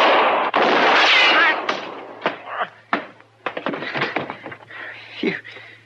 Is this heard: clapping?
no